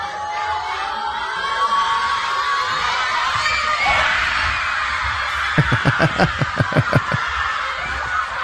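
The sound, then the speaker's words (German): Schoolchildren cheer and shout as a football match kicks off at a school viewing, a dense, steady roar of young voices that is joined near the end by a quick run of rhythmic thumps or claps. “Die Kids konnten freiwillig früher kommen und nach dem Spiel startete dann offiziell der Unterricht. Beim Anpfiff klang das Ganze so.”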